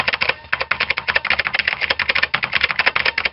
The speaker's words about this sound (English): See, type in a variable for wind resistance.